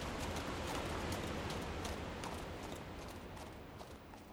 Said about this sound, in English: Then we hop on the horses and we head home.